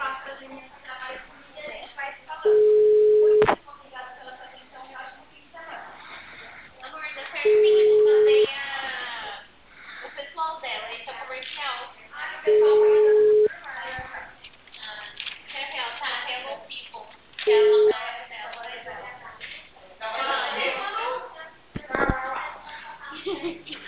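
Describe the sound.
Ringback tone on a telephone line: a steady low electronic tone sounds in four evenly spaced bursts, the last one shorter, separated by longer gaps, while people talk throughout.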